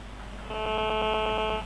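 Telephone line tone as a caller is answered on a phone-in line: a bright, buzzy electronic tone pulsing rapidly and evenly for about a second, then stopping.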